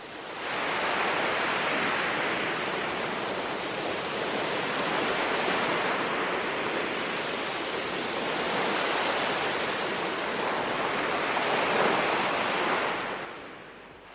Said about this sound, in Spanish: ¿Sienten las olas del Cantábrico?